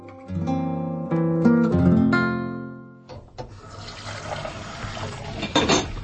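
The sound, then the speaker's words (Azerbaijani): Running water and splashing as dishes are washed in a kitchen where a student meal of pasta topped with meat is cooking; a few ringing tonal notes open, then steady water noise fills the rest. “Mətbəxtə xörək pişir. Əsl tələbə yeməyi, makaron üstündə də ət. Qab-qaşıq növbə ilə yuyulur”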